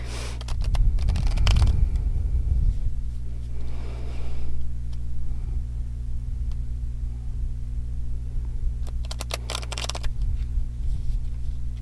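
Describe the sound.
Cards being shuffled in two bursts of rapid riffling, one early and one near the end, with a steady low hum underneath throughout.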